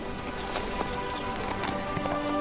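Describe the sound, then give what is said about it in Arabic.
Horse hooves clip-clopping as the animal walks, a steady series of crisp hoof knocks at an even pace over a sustained tonal background. “هيا امشي أيها الحصان. هيا سر.”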